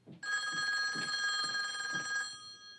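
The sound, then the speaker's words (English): A telephone bell rings in one sustained, steady ring of about two seconds, a bright metallic trill at a moderate level that cuts off cleanly. “She goes to the phone.”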